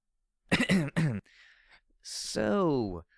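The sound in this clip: A person clears their throat in two short, voiced bursts, followed by a breathy hiss and a longer vocal sound that falls in pitch.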